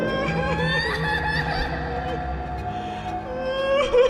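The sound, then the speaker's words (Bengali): A small child crying together with a woman's voice, the wavering, sobbing vocal sounds loud and continuous throughout. “আবারও কিছু বলতে যাবেন কিন্তু তার আগেই একটা ছোট্ট বাচ্চার কান্না শব্দ সঙ্গে ভেসে আসছে একটা মহিলার গলা”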